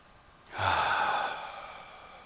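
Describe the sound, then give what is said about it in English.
A deep breath during a guided breathing exercise, heard as one airy, breathy rush that swells suddenly and then fades slowly over about two seconds, with no talk. “notice your next breath and perhaps take it in a little bit deeper. And hold it for a count of two or three and release it.”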